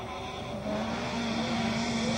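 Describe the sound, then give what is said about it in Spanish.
Racing cars passing on a rally stage give a steady, droning engine roar that swells slightly after the first half second and holds at a constant loud level, with no voices. “mientras siguen pasando ahí los autos por los diferentes sectores donde están ubicadas las cámaras de Canal 2”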